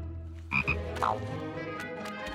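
A frog croaks at a pond, giving a few short, raspy croaks in quick succession over a faint low background rumble, with no voices.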